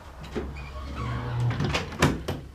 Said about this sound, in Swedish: Jag har faktiskt balkongen också. Det skulle lite vädras med. Här var det svalt, ja. Ja, faktiskt. Jag stänger den där.